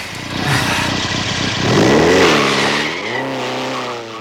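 A car accelerates hard and speeds off, its engine revving with rising pitch and a brief skid of tires. The sound is loud throughout, with no voices.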